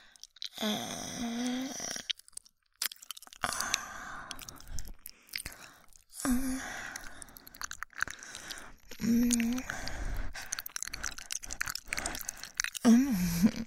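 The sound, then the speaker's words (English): Chewing and crunching of cooked rooster meat at a taste test: a run of moist bites and crisp crunches comes in irregular bursts, fairly close and clear, with short pauses between mouthfuls. “But that's not enough. Time for the taste test.”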